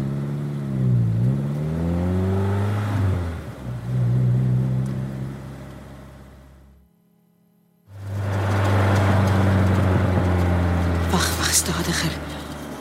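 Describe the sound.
Car engine revving as the vehicle drives off, its droning pitch swooping up and down, then a short break of near silence before a loud, steady engine hum returns with some high hiss toward the end.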